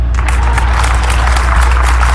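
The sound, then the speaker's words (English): Audience clapping: a dense, even patter of many hands that holds at a steady loudness throughout, with no voices over it. “Clap.”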